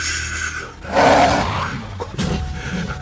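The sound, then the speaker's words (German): A wolf lets out a sudden loud, rough growling roar that swells and then trails off into lower rumbling grunts. “Oh, das ist ein Wolf. Also sowas in der Art...”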